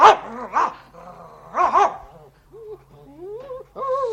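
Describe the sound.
A dog barks in a 1944 radio drama recording. A few sharp, loud barks come in quick bursts, followed by quieter, higher whining tones that rise and fall.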